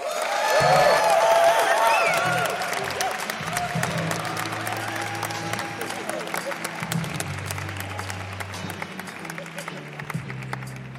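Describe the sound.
Applause and cheering from a college chapel audience giving a warm welcome to a speaker. Clapping is loudest at the start and then settles into steady, dense clapping for about eleven seconds, with whoops and scattered voices mixed in.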